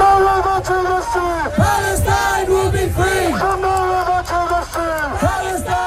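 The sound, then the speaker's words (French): A large pro-Palestinian demonstration crowd in London chants and shouts loudly, many voices rising together in rhythmic, repeated calls. “On entend une manifestation pro-palestinienne qui a rassemblé de nombreux protestataires.”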